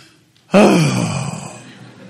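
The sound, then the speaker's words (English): A deep, exasperated breath from someone leaning on a counter, voiced like a groan. It starts suddenly, falls in pitch and fades over about a second and a half, heard alone. “I know what I'm going to do. I'm going to lean on the counter and breathe real deep. I'm going to do like this.”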